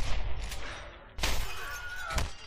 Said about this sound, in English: He shoots.